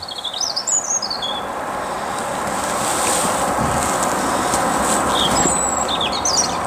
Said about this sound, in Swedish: Ja, den är lätt att känna igen när man har lärt sig. Det är en rödhake som sjunger.